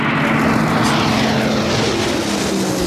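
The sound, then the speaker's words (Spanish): Steady, loud drone of a Pilatus PC-21 advanced training airplane, a propeller-driven aircraft, holding a continuous engine and propeller hum with a sustained tonal whine and no voices. “el Pilatus PC-21 es el avión que aprenderá a pilotar la princesa de Asturias, un avión que suena así.”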